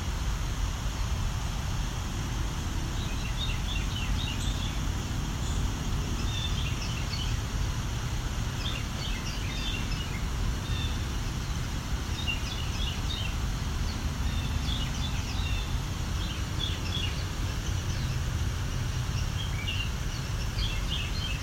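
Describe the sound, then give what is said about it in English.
Carolina wren, most likely a male, singing quietly while practicing its song: faint, repeated chirpy phrases recur throughout, set against a steady low rumble and hiss. “This is a lot quieter than a Carolina wren usually is. They can really project. This means this bird's practicing. Most likely a male.”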